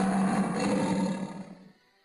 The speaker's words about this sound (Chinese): 他悄悄地跑过去，大吼一声